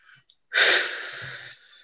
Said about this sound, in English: One more deep breath.